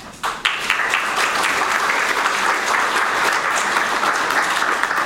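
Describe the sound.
Audience applause welcomes a speaker to a morning talk, opening with a few sharp claps before swelling into a dense, even wash of clapping that holds steady to the end.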